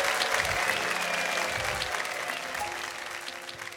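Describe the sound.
Audience applause welcoming a singer onto the stage at a live show: a dense, steady wash of clapping that eases slightly toward the end.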